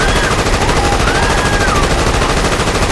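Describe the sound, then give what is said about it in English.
Rapid blaster gunfire at short range. A dense, unbroken stream of loud shots blurs into continuous crackling noise with no pauses. “squeezed the trigger of the blaster”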